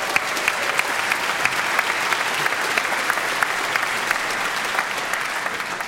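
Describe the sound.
Audience applause rings out as an ovation after a musical performance, dense and steady clapping that stays loud for several seconds without letting up.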